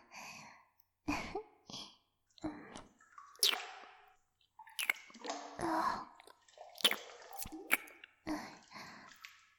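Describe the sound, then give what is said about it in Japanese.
Wet kissing sounds made close to the microphone: a series of soft smacks and squelchy pops in an uneven rhythm, separated by brief quiet gaps, with no talking. “もっとチューしよう。”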